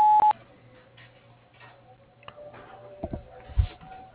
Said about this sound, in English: At the tone, please record your message. When you have finished recording, you may hang up or press 1 for more options.